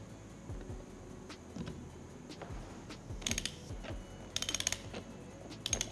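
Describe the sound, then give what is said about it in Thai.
Ratcheting clicks of a wrench tightening a nut on a cable connection for a BMS, coming in two short bursts of rapid, bright clicking over a low mechanical background, with no talking. “ต้องการขันให้แน่นเนี่ยเราต้องใช้ประแจนะฮะไอ้ตอนนี้ก็ไม่ต้องแน่นมากก่อนนะฮะขันให้พออยู่ก่อน”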